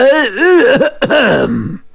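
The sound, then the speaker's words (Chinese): A voice imitating a deliberate cough: a drawn-out, voiced throat-clearing with a wavering, sliding pitch, loud and theatrical, trailing off at the end. “杨国忠心领神会，故意咳嗽一声，”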